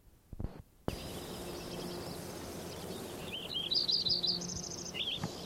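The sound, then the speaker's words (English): A Lincoln's sparrow sings a high, rapid, jumbled trill of bright chirping notes. A few sharp knocks come first, and the song plays over a steady low background hiss. “Lincoln sparrow number 7.”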